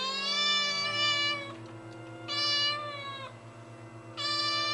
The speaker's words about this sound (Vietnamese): Con mèo mướp kia nãy mới nhảy qua hàng rào, nay lại lững thững bước về bên hiên nhà. Nó hướng đôi mắt màu nâu đen nhìn vào bên trong rồi kêu lên vài tiếng, nghe như tiếng của trẻ con khóc.